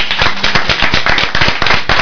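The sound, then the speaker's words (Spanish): Rhythmic applause for a guest in a radio studio: sharp, loud claps in quick succession with an even, steady pulse from start to finish. “Un aplauso para ella.”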